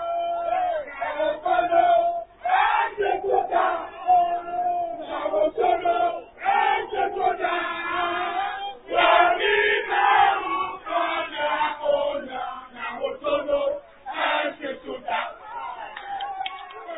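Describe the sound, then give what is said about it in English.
Supporters chant and cheer in joy at news of a withdrawal from a court case: many voices in loud, rhythmic chants with bursts of shouting, rising and pausing in waves throughout. “The withdrawal of Nijon Coleman from the suit was a welcoming news for supporters of Dr. Zenato Rollins, who chanted and expressed joy over the news.”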